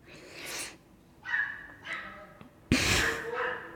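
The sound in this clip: A yapping dog lets out a few sharp, harsh barks in separate bursts, the last one loudest and longest.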